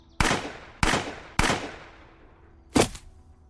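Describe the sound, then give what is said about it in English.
Handgun shots: three sharp, loud bangs at roughly even intervals, each trailing into a long fading decay, followed a little later by a fourth, shorter report. “I felt the welcome feeling of the gun recoiling in my hand, the vibrations that sent up my arm. My aim was a bit off, but all three rounds found a home.”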